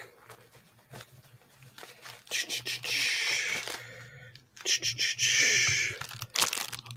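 A small envelope package being torn open, with two longer ripping, crinkling bursts of paper and plastic surrounded by scattered rustles and faint crackles.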